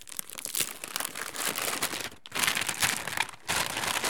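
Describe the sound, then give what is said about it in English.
Crinkling plastic and cardboard packaging being torn open from a container of Peeps marshmallow candy, a steady crackling that breaks off briefly twice before resuming. “I unwrapped the plastic and the cardboard.”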